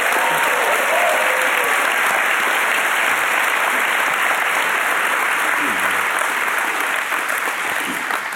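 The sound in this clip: Warm audience applause greets two guests at a live evening event: loud, dense clapping that holds steady for about eight seconds and only slightly eases at the end.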